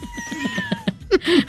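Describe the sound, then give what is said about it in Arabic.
A cat meows several times in a row, short voiced cries that bend up and down in pitch, the later ones louder and more drawn out, with no one talking. “خلاص دي قطه.”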